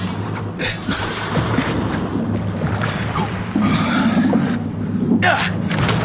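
Oars dip and splash as a boat is rowed over open water toward the coast of Brittany. A steady wash of water and wind runs throughout, and a few sharper strokes stand out.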